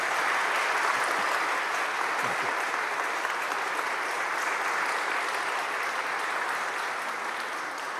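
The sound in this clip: Audience applause welcoming a guest speaker: sustained, dense clapping from a large crowd, holding at an even level for about eight seconds before easing slightly at the end.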